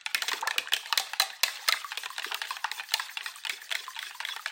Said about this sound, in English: Crack it in a separate bowl first. And we're whisking together.